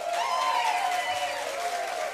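Live in-studio audience applauding at the end of a music show, a steady, moderately loud patter of many hands clapping that continues without a break.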